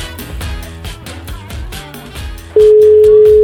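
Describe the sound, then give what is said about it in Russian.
A telephone ringing tone is heard during a call: one steady, loud, mid-pitched tone held for nearly a second after rhythmic, beat-driven music. “звоним диетологу Олесе надеемся и верим, что сейчас Олеся поднимет трубочку”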